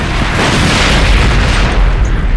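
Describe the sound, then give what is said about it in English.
Explosion destroying a gunship: a loud, dense, continuous roar that rumbles steadily for the whole moment with no break and no voices. “It was the interference that saved them from the explosion that mangled and consumed the gunship.”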